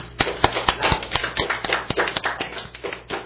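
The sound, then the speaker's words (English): Soft, polite golf clap: a steady run of many evenly spaced, light handclaps at a slow, even pace, fairly quiet and alone. “Golf clap. Very cool.”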